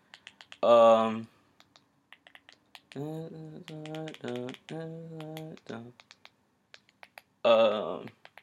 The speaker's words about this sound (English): My bad, I'll just click. I'm using the Roku remote.